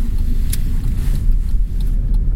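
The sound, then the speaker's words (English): A car on a road on a cold morning in Kansas City, heard as a loud, steady low rumble of engine and tires with faint higher hiss and no clear swell. “What is that car doing?”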